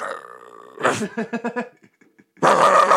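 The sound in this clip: A person's voice imitates a dog barking and growling: a low growl, then a quick run of gruff barks, a short pause, and a loud sustained snarl.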